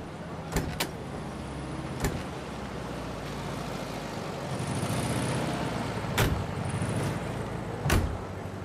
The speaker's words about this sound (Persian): بفرمایید، در اتومبیل بازه.